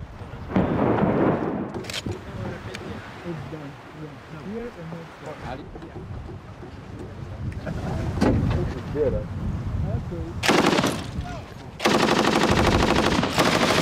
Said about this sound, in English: Limonov became notorious when he was then filmed firing a machine gun in what seemed a random manner into the city below.